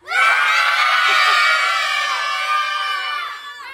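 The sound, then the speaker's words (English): A large crowd of students screams, whoops and cheers at a school celebration for an Educator of the Month in Winnebago. The din is loud and sustained, holding steady for several seconds before easing slightly at the end. “I'm going to count you down. Make as much noise as you can. We want to hear you in Winnebago, okay? 3, 2, 1.”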